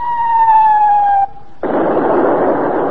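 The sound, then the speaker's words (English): A shell or gun round fired: a steady whistling tone that drifts slightly downward, a brief lull, then a sudden loud, sustained roaring burst of noise. “what the blazes? Who fired that? Say, come up. We're under attack.”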